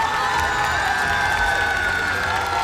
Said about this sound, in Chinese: 首先让我们掌声欢迎国风音乐社的巡风主理人王佩宇老师。